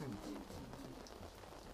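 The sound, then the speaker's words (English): Rain falling, a faint, steady hiss of drops on a surface that continues evenly without a break. “And it's raining.”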